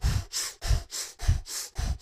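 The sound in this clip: Heavy, rapid breathing in a breathwork exercise: loud, steady breaths alternate between a low, rough rush of air and a higher airy hiss, for about four full cycles, with no talking.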